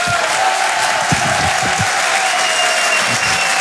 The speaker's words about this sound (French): Je vous demande de faire un maximum de bruit et de l'encourager.